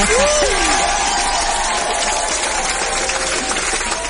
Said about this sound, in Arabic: سو تستاهلوا صفقة الصراحة